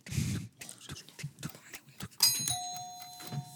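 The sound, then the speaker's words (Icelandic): A quiz bell rings once with a bright metallic ding that rings on and slowly fades, after a stretch of soft, scattered noises. “Og þarna kom Bjalla.”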